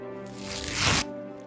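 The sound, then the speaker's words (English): A paper award envelope crinkles and rustles in one brief burst of just under a second, over a steady tonal hum. No one speaks. “I think I have the envelope here. Let me just find this envelope.”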